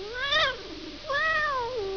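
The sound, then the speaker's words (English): A mouse-trap box gives two fairly faint cat-like meows with nothing else heard. Each is a clear wavering cry, and the second is longer and drawn out. “The weight of the mouse makes the box go meow.”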